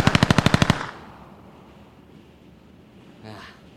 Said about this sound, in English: Now I'm just going to pop up and I'm just going to blast him again.